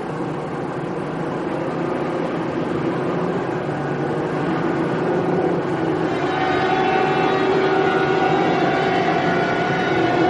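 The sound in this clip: A snowcat engine driving through snow, a heavy, continuous mechanical rumble with a steady tonal hum that stays loud and unbroken throughout.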